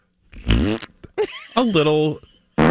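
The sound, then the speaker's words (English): A novelty fart bag prank toy lets out a few loud, reedy, buzzing blats of varying length with short gaps between them, the longer bursts sagging in pitch as they trail off. “something that's labeled fart bag sounds like this”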